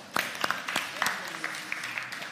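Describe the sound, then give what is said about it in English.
Sparse, uneven clapping from a small group during a lesson on a psalm, made up of a few scattered sharp claps rather than full applause. “Give him a clap.”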